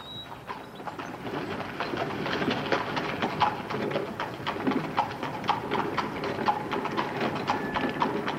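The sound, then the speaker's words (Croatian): Horses trot slowly while pulling a bouncing carriage: many steady hoof clops continue throughout at moderate loudness, with no voices. “Konji tromo kaskaju i kočija stameno poskakuje”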